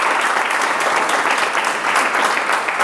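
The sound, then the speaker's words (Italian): Applause given to a guest during an interview about her book: dense, steady clapping from many hands that holds at an even, loud level for about three seconds, with no voices over it. “E ti facciamo un applauso intanto”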